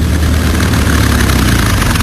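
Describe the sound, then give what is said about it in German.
A small airplane taxiing after landing, its engine running at a steady idle: a loud, continuous low droning rumble with no voices. “Da vorne landet Pitt. Er kommt zu uns gerollt.”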